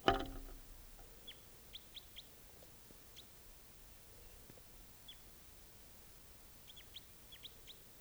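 A wild bird calls with short, high chirps, faint and scattered in small clusters over a quiet, steady hiss.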